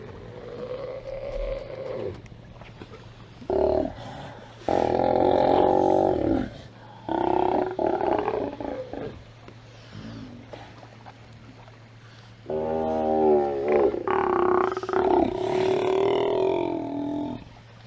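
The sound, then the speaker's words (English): A colony of Steller sea lions roars in several long, deep, throaty bellows of varying length, separated by quieter gaps, over a steady low hum. “That was a colony of Stellar sea lions.”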